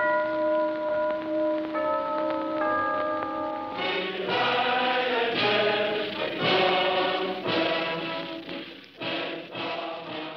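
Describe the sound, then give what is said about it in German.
A clock chime from 1933 German clock advertising plays the opening bars of the Nazi anthem. A few sustained bell tones come first, then a denser run of struck, ringing notes fills the rest of the melody. “Die Kienzle-Werbung arbeitete 1933 ganz unverhüllt mit nationalen Argumentationen und propagierte deutsche Klänge, so die Anfangstakte aus dem Horst-Wessel-Lied, der NS-Hymne.”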